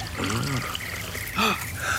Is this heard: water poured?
yes